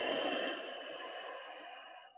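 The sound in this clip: A long, deep exhale during a yoga breathing exercise: a steady, breathy rush of air that starts strong and slowly tapers off over about two seconds.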